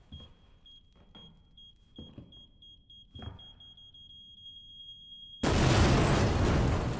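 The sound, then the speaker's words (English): Bomb going off in a zombie video game: a steady high electronic tone over a few soft thuds, then a sudden loud, roaring blast that cuts in and fills the final seconds. “It is time to set off a bomb in the place. Click the thing. Use the bomb. Turn on the bomb. We've got 8 seconds.”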